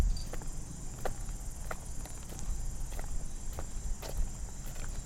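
Footsteps on an old, irregular cobblestone road at an entrance to a park, many crisp, fairly evenly paced taps over a steady high insect chirr and low background rumble.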